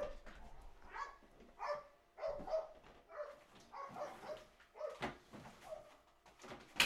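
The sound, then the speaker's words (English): Faint barking of a neighbour's dog, many short barks in irregular bursts spread across the whole stretch. “and the neighbor's fucking dog is barking, those badass dogs”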